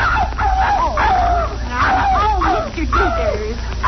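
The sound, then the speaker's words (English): A dog yelps and whines after its tail is stepped on, giving several bursts of high, wavering cries with sliding pitch over a steady low hum. “be careful. Don't step on Daisy's tail.”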